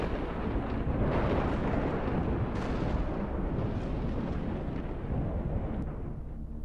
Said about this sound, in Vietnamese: Khi đoàn người đi khuất thì có tia sét kéo dài đánh thẳng xuống sân nhà ông ngoại, nghe đánh đùng một cái đinh tai nhức óc.